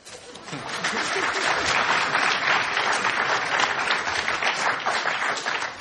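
An audience applauds to welcome a panel of digital film industry figures onto the stage, a dense wash of clapping that swells in the first second and then stays full and steady to the end.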